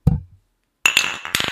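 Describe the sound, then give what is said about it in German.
Drinking glasses clink together in a toast among people drinking beer: a dull knock comes first, then a couple of bright, ringing glassy chimes with a metallic shimmer, loud and clear with no talk over them. “Wollen wir darauf nochmal anstoßen? Ja, machen wir. Aber erst mit Mikrofon und dann mit dem Glas.”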